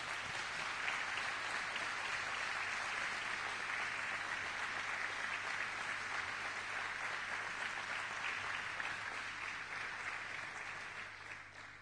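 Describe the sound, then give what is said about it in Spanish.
Applause from a church audience: dense, steady clapping holds at an even level throughout, then thins slightly toward the end. “Dele un aplauso a ellos.”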